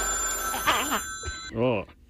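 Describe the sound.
An old-style telephone bell rings with a steady high metallic tone that stops about two-thirds of the way through. Voices are heard alongside it.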